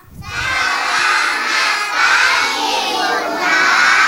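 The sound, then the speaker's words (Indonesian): A group of kindergarten children shouts and cheers in a radio studio, a loud, sustained chorus of high voices that starts abruptly and stays energetic throughout. “Wah, senang sekali ya hari ini studio RRI jadi ramai dan penuh semangat. Hari ini Bunda pembawa pasukan hebat dari”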